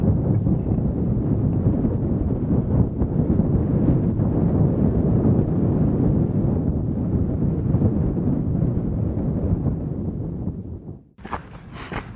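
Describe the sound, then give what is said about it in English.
Wind sweeps across the Cairngorm mountains as a steady, loud low roar and buffeting rumble on the microphone, easing away abruptly near the end. “And I'm just going to pause before I start to descend and listen to the wind for a couple of minutes.”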